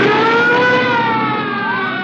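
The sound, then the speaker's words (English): Police car siren wailing loud and continuous, a sustained rich tone that drifts slightly lower in pitch, with no other sounds over it. “Police cars. All right, don't get excited. They can't be after us.”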